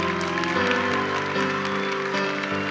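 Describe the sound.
Steady applause from a church audience at a service, a dense unbroken clatter of clapping hands that holds at an even level for the whole stretch.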